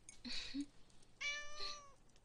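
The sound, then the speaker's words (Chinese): A pet cat meows twice, high-pitched and faint, with a short pause between the two calls and no other sounds. “那只是我养的猫，它在睡觉呢。我这里有两只猫”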